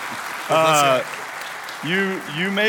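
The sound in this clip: An audience at a men's group gathering applauds to welcome a speaker coming out, steady clapping with voices calling out over it in two bursts.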